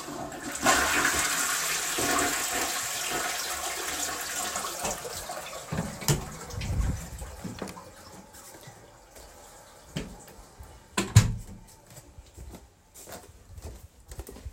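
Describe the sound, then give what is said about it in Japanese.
A toilet flushes with a loud rush of water that slowly fades into lighter gurgling and trickling as the bowl refills. “トイレ流したいと思います。よいしょ。ちょっとじゃあ流します。うるさくなっちゃうかも。”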